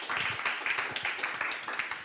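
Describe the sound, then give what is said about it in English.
An audience applauds to welcome speakers at a talk introducing Wikidata. The clapping is dense and brisk, with a fairly even patter of claps throughout. “Okay, a big applause.”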